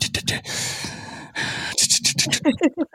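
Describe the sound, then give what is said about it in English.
Loud breathing close into a microphone: a few long, heavy, noisy breaths in a row, followed by quicker, shorter breaths and gasps near the end, with no talking. “You hear how now when he's not even, you know, speaking, how loudly he types, how loudly he breathes.”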